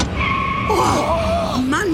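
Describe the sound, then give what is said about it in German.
Car tires screech during a chase as an SUV's path is blocked: loud, continuous high-pitched squeals with wavering, sliding tones that swoop downward near the end, lasting about two seconds. “Hinter uns sieht es aus wie in einem amerikanischen Actionfilm. Quietschende Reifen, Blechschäden, gebrochenes Glas.”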